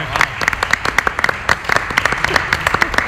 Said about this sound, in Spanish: Un aplauso para Parra, un aplauso.